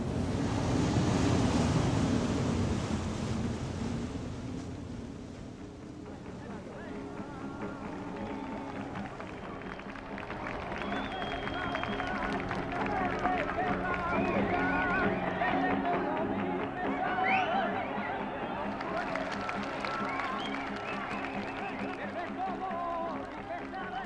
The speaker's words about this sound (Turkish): Denizin ortasında süzülerek giden bir yelkenli gemide geldi Sevda.